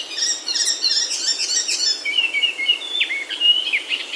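Indian golden oriole singing among various birds in a rose apple tree: a continuous stream of bright, high twittering chirps and short whistled notes, with no talk.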